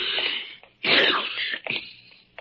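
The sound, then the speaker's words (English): A man sneezes once, a sudden loud burst, with breathy sounds before and after. “Ah, confound it. I do not have a cold. A man can sneeze, can't he?”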